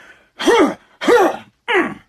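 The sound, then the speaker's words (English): Three harsh throat-clearing hacks from someone trying to dislodge a bug caught in the throat after swallowing it. They are evenly spaced, loud, rough and voiced, and the last one is shorter. “while I was talking about Seattle, a bug just flew by and flew right into my mouth. Hold on. Oh my God.”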